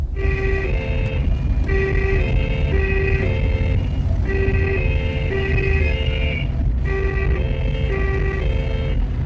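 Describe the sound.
Police car siren in a radio drama: a two-tone siren alternating high and low notes in a repeating pattern over several cycles, above a steady low rumble of the moving car.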